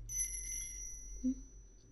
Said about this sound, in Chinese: 这个粉粉的铃铛圈，小项圈，小东西，喜欢吗？